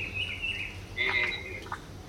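Oropendolas and other birds singing at Cancurua Mayor de Tenegungurua: faint chirps and whistled notes over a steady low hum, with a brighter burst of song midway.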